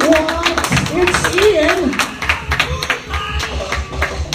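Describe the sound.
Scattered audience clapping for a comedian at a comedy show, sparse claps sounding under a man's loud speaking voice.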